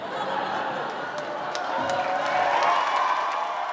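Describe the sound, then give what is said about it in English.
A studio audience laughter sound effect plays as a sustained wash of laughter and chuckling from many people. It holds a steady level and swells slightly near the end. “You wanted studio audience laughter, and you got it.”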